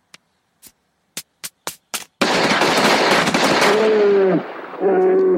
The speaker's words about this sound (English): I know bullets can be scary sometimes